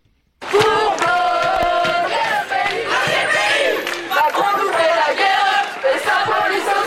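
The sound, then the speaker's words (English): A large crowd of protesting students in France chants and shouts in unison. The loud, sustained roar of voices rises and dips slightly but never stops after a sudden start. “The sound of protests by students in France.”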